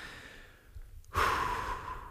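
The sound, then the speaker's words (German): A deep breath in and out: a soft, faint inhale, then a louder, breathy exhale, heard alone without talk. “Und ich möchte dir erstmal sagen, wir atmen mal durch.”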